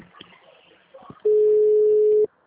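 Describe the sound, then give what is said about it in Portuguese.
A telephone ringback tone signals an outgoing call ringing: one steady, mid-pitched tone lasting about a second, after faint voices speaking. “Ah, tá chamando.”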